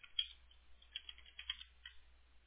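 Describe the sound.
Notes are typed on a computer keyboard in quick, irregular bursts of light keystrokes, faint and thin in tone.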